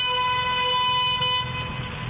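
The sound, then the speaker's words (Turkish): A car horn honks as a steady, bright, buzzy tone held for over a second, then cuts off, leaving low road noise underneath. “Korna işareti yapıp bizi durdurmaya çalıştı.”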